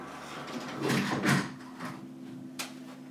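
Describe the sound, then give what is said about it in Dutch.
A window being shut: a soft sliding rumble with a brief scrape, then a faint click, over a low steady background hum. “Ik hoor wat geluid op de achtergrond, dus ik ga eventjes het raam dicht doen.”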